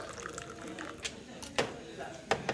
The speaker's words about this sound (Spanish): Se sirve té.